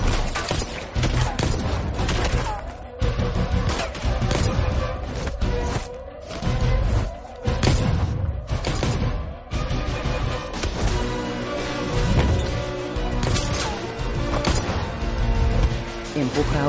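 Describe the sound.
Pistol gunfire in an action scene of the film Hitman: Agent 47: many sharp shots and crashing impacts burst out in quick succession over a loud, sustained orchestral score.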